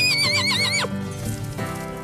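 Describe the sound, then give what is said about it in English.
A pony whinnies with a high, wavering call that drops sharply in pitch as it ends, followed by a few soft hoof clops while it gallops through woods and mountains. “She hopped on Frankie B, her trusted pony, and they galloped through the woods and mountains together”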